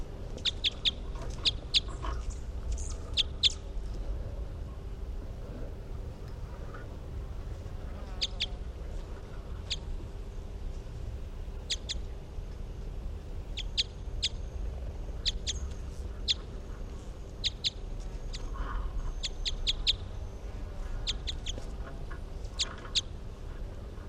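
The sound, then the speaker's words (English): Bird calls from one numbered study bird: many short, high chirps and tweets in scattered bursts, fairly faint over a steady low rumble of background noise. “And these are the calls of bird 363.”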